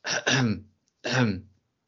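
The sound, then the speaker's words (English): A person clears their throat and coughs in two short, rough, breathy bursts separated by a brief pause. The first burst is split in two. The sounds are moderately loud and there is no speech. “because I've got a cough coming.”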